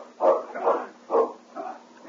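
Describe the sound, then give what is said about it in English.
Malamute sled dogs barking while pulling a light sled along a snow-packed trail: four short, harmonic barks or yelps in an uneven rhythm, mid-pitched and moderately loud, with no talk over them. “I'll handle the dogs for a couple of miles. Come on, you Malamute!”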